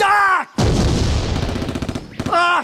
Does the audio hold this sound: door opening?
no